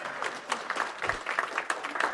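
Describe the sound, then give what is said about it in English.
Audience applause: a dense, crackling patter of many hands clapping at a moderate level, steady for the full two seconds without clear individual claps standing out. “give them a round of applause. Well, yeah, there we go.”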